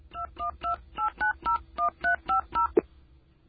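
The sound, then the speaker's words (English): Telephone keypad tones: ten short, even beeps dialed in a steady rhythm, ending with a soft click. “Okay, so I dial 1212.”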